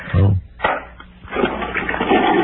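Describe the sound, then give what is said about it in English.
A toilet flushing, heard over a telephone line as a loud rush of water that starts, dips briefly, then swells again into a sustained broad wash of noise. “Yeah, nice flush.”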